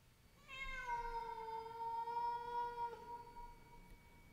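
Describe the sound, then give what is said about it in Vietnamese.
A cat meows outdoors near a banana garden: one long, drawn-out meow with a clear, tonal cry held for a few seconds before tapering off, fairly faint and alone. “Trong tiếng gió rít, tựa như có tiếng con mèo kêu vọng lại, nghe đến rợn cả người.”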